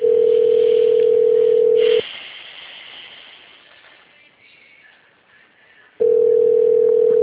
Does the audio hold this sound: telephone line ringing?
yes

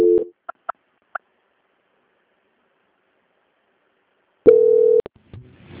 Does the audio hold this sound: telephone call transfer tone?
yes

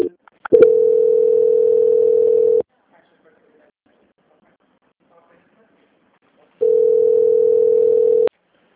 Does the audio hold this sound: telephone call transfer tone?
yes

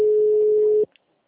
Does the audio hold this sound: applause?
no

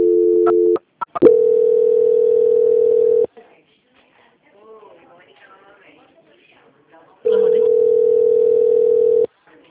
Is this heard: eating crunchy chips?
no

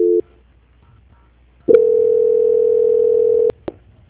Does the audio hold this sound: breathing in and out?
no

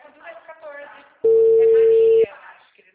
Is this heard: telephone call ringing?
yes

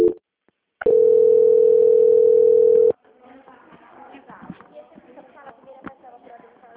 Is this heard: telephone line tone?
yes

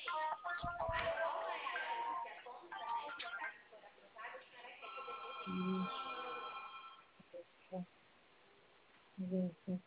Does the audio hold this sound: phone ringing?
yes

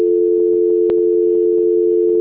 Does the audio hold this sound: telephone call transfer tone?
yes

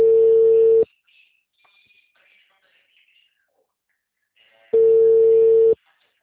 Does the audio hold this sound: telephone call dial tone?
yes

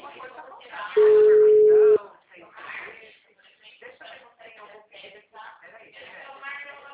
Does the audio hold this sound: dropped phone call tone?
yes

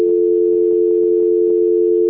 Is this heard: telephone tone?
yes

